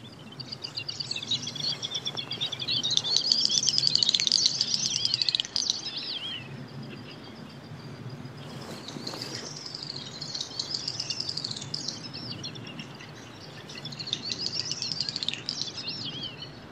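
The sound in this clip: Great snipe calls, a wader, in bursts of high, rapid bubbling and twittering notes that repeat over a low, steady background murmur.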